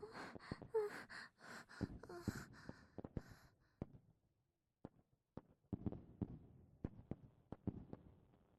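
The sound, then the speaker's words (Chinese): Fireworks go off outside near midnight on Lunar New Year's Eve: many sharp cracks and pops that come densely at first, then scattered bangs with short gaps between them. “外面的烟花越来越多了”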